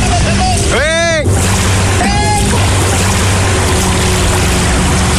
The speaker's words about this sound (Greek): Και σήμερα το πρωί η κάμερα του Sky κατέγραψε αυτό το φουσκωτό να κινείται με μεγάλη ταχύτητα κατευθείαν πάνω στην ξέρα.